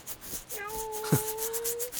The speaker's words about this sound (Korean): 그래, 착한 고양이군. 뭐야, 갑자기 문은 왜 긁어?